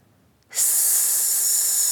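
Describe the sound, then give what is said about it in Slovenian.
One deep breath in begins after a short quiet pause. It is a loud, steady, airy hiss that holds evenly until the end, with no voice. “Vdih in”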